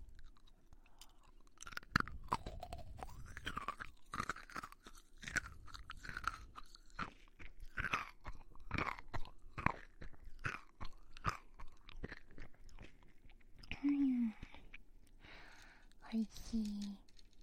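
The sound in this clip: Crunchy, round, hard food is bitten and chewed close up, with many dense, crisp crunches and crackles in an uneven rhythm. A soft voice briefly breaks in near the end.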